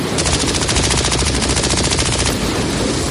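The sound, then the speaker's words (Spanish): Rapid automatic fire from a military weapon during a night clash between drug smugglers and Civil Guard officers in Cádiz, heard as a loud, continuous rattle of dense, evenly spaced shots that runs without a pause for about three seconds. “Así suena un arma automática de guerra.”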